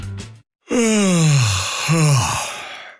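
A person yawns: after a short sound at the start, a long, drawn-out voiced yawn slides downward in pitch, and a second, shorter yawning breath follows with the same falling tone.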